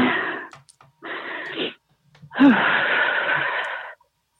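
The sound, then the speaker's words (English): Heavy, labored breathing from a person struggling to catch their breath: three loud, rasping breaths separated by short pauses, the last one the longest. “Sorry, I'm just trying to breathe.”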